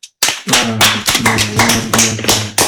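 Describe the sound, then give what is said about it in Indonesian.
A burst of hand clapping in a classroom language lesson: many sharp, closely spaced claps after a brief silence, with voices sounding underneath. “Applause dulu.”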